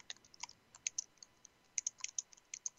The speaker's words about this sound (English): Let me just put a note in. I'm writing in the chat room myself now.